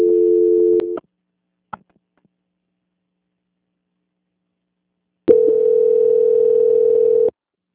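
A steady, flat telephone line tone plays during a call transfer. A short burst of tone ends, a click follows, then a few seconds of silence before a second tone of about two seconds.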